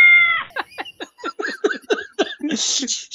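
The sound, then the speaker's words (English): A cat meow sound effect: a held tonal cry followed by a rapid run of many short, chirpy meow-like calls, ending in a brief hiss-like burst. “But then you put like a cat sound, like a meow, when he says.”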